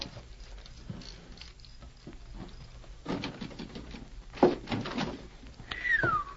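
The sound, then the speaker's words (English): A safe being opened during a robbery: rattling, clicking handling noises and a thunk, then a falling, squeal-like creak near the end. “Shut up and open that safe.”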